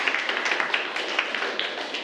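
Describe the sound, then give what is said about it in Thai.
Students clap for a classmate in a classroom, a quick, uneven patter of many light hand claps at a fairly faint level. “ปรบมือให้เพื่อนครับนักเรียนนะครับ”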